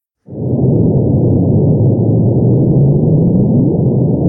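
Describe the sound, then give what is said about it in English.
Gravitational waves from two colliding neutron stars, recorded by LIGO and converted to sound, form a loud, steady low rumbling hiss that starts abruptly, with a faint rising chirp sweeping up near the end. “So those are gravitational waves converted into sound waves, okay? So ripples in space-time that have been transformed into waves that we can hear. And that is the sound of two neutron stars colliding.”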